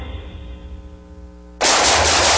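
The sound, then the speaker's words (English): Rapid gunfire from a firearm erupts abruptly after a steady low tonal hum, a loud continuous burst of shots that lasts to the end. “Ooh, nice shooting.”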